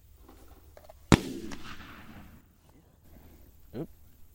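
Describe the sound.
A single loud shotgun blast fired during a dove hunt cracks out sharply and then trails off in a long rolling decay, with a much softer burst of sound later on.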